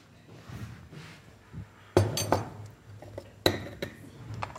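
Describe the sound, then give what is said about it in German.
A sieve used to sift a teaspoon of carob coffee powder, giving a few sharp metallic knocks and clinks against a bowl with faint rustling between them, and no talk. “Also ein Teelöffel Karo-Kaffee und jetzt kommt wieder das mit dem Sieb zum Einsatz.”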